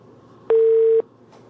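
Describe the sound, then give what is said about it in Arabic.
A telephone line disconnecting during a call-in: one steady, loud, mid-pitched beep stands out over faint line hiss, followed by a brief faint click. “انقطع اتصال أم طارق.”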